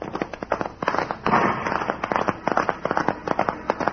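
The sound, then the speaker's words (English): Gunshots fired by a horseman during a posse's pursuit of escaping convicts, a dense volley of sharp cracks and pops that come rapidly and irregularly without pause. “The horseman, the man who fired the shots, right away passed.”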